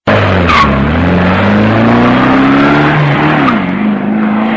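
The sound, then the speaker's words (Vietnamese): A taxi drives away, its engine droning loudly and steadily with a slowly shifting pitch, joined by brief squeals of tires. “Taxi vừa chạy đi”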